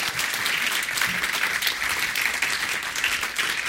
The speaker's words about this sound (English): I heard all those whoops.